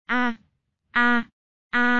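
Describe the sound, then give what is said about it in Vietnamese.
Miserable moaning cries serve as a sound effect in a fantasy audiobook. Three short, identical groans come at even intervals, each held at the same pitch with silence between them. “đột nhiên, trận trận thê lương tiếng kêu rên vang lên, để cho bọn họ đánh cái giật mình, đều phục hồi tinh thần lại. Phát sinh những thứ này tiếng kêu rên âm người,”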